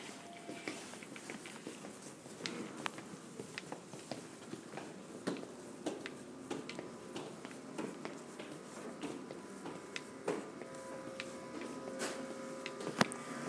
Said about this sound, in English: Elevator sounds. That was the elevator.